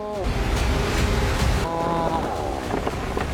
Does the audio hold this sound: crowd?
no